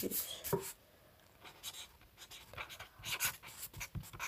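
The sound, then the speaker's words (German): Notes being written down on paper: a pen scratches in short, quiet strokes in an irregular rhythm, with brief pauses between bursts of scribbling and no talk. “Ich schreibe die mir kurz auf, dann geht's.”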